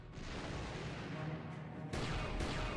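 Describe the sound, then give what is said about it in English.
Turret fire aimed at enemy ships in the video game Knights of the Old Republic: a dense, continuous roar of blasts, with a harsher, louder burst near the end. “We got one more to take out, one more ship to take out. And it flew right under where we could fire.”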